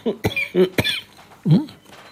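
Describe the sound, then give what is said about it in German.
A person coughs a few times in short, harsh bursts, with throaty voiced grunts between and after them. The coughing is fairly loud, with no talk. “Ich muss abhusten, Entschuldigung.”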